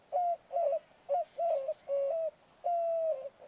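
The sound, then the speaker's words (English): A white-winged dove calls with a series of six low, hooting coos in an uneven rhythm, the final note drawn out longest, clear over a quiet background. “And then I was like, okay, well then what does a curved-billed thrasher sound like? What does the white-winged dove sound like?”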